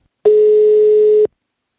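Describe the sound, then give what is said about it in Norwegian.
A single steady telephone line tone sounds while a call is placed: one clean, mid-pitched beep lasting about a second, alone against silence. “Nå skal vi ringe dagens helt, Jon Arne Riise”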